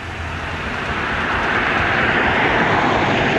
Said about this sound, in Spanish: Ahí viene un vehículo, ¿no? A ver si viene exceso de velocidad. Viene muy fuerte, mira, muy fuerte bajando.